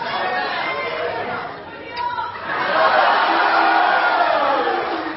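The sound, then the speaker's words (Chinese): Warm applause and cheering from an audience at a live stage show surge after a short lull, dense and steady, mixed with chatter and an occasional whoop. “谢谢，谢谢大家的热情掌声，谢谢。”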